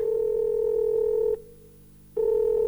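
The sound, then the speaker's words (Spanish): A steady telephone dial tone hums at an even pitch, drops out for under a second, then resumes at the same level. “Esta es la llamada que nunca quisieras recibir.”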